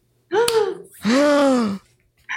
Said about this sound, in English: Le gasp.